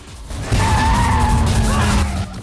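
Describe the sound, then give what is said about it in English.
A car's tires screech as it skids sideways around a corner, a loud, sustained, high squeal with a deep engine rumble underneath that holds for about two seconds and then fades. “He grimaces as he swings the car around, spectators scattering as he smashes sideways into a concrete pillar.”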